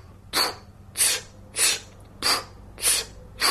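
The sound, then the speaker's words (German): Forceful bursts of breath pushed out from the diaphragm in a breathing exercise: six sharp, hissy puffs at an even pace, about half a second apart, each of similar loudness, with no talking. “einatmen im Bauch rein, ein bisschen pressen, ein bisschen drücken und dann mit Druck stossweise rausstossen.”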